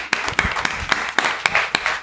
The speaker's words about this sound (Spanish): Me gustaría, por favor, que dieras un aplauso.